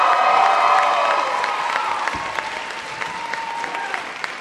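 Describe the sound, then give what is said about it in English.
More than 900 people in an auditorium applaud and cheer to welcome speakers to a science talk. The loud, full applause slowly thins until scattered single claps stand out. “So you can hear them. More than 900 people have crowded into Prochnow Auditorium to hear the Meteorite Men and the CEO of the Planetary Society, my boss, Bill Nye, the science guy.”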